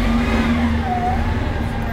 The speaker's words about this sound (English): Oh, the bus? Yeah. That is one of the downsides of doing an outdoor show.